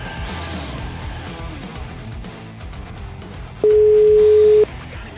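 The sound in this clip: Telephone ringback tone while placing a call: a single steady, mid-pitched beep lasting about a second, sounding after a stretch of low, muffled background noise.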